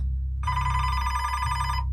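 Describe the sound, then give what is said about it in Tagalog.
An old hotel telephone bell rings at 3 a.m. in a single bright, metallic burst lasting just over a second, above a low, constant hum. “Napansin ko po na palaging may tumatawag tuwing 3 a.m. Walang mintis. Pero pag sinasagot ko naman yung telepono”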